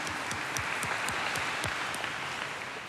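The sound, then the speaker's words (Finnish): An audience applauds at a church service, a steady dense clapping that stays loud throughout and eases slightly at the end. “Isot aplodit teille.”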